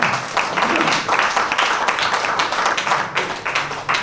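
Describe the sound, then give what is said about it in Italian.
Audience at a comedy show applauding: dense, loud clapping from many hands, sustained and even throughout. “Fate un applauso, cominciamo a scaldare.”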